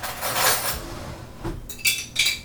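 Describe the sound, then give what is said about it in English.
Metal clanks and clinks as a kettle is taken off a stove: a few sharp, bright knocks of metal against metal over a low rumble, with the last two the loudest. “I've got to take a kettle off the stove.”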